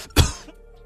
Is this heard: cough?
yes